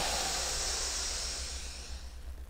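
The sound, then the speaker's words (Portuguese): A deep breath is drawn in and let out during a yoga breathing exercise, a long steady breathy rush of air that fades toward the end. “Inspira, leva o ar lá no umbigo e solta.”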